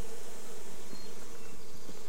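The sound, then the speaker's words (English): Honeybees buzzing inside an opened hive box, a steady, dense drone that holds an even level throughout without pauses or voices. “See a lot of bees in this box, at least up in the top.”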